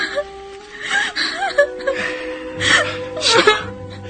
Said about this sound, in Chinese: 别哭得那么伤心